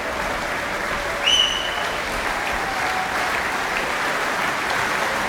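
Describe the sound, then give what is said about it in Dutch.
Applause from an audience of about 400 for a string quartet at the opening concert of a music festival. The clapping is dense and even, keeping a steady level without pause. “ik schat inderdaad zo'n 400 man, blijft enthousiast klappen”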